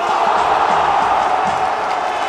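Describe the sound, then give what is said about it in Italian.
A stadium crowd roars and cheers after a goal in a mock insect football match, with grasshopper fans in delirium. The noise is a dense, unbroken wall of crowd sound at a steady, loud level. “I tifosi delle cavallette sono in delirio.”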